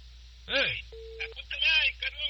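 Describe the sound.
A telephone call being placed: one brief, steady electronic phone tone sounds between lively bursts of voices, with people talking around it.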